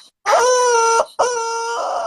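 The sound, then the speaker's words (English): A rooster crowing in two long, loud, drawn-out calls separated by a short break, with no talk around them. “Please ignore this chicken. This chicken don't have nothing to do with it.”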